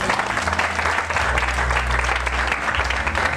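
A church audience claps in steady, sustained applause that stays even and dense throughout, with a low hum beneath.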